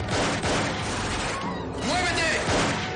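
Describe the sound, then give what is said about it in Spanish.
Gunfire from a shootout in a 1999 action thriller film, with several men bursting into a venue and firing in all directions. Rapid, dense bursts of shots continue beneath a voice speaking over them. “De pronto, varios hombres entran en el local disparando en todas direcciones. Nick escondido también dispara al agresor.”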